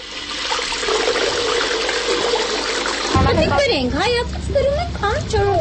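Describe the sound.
Water runs steadily from a spring-like courtyard fountain that gives water to passers-by and to residents of nearby multi-storey buildings. A continuous rushing flow goes on beneath people talking.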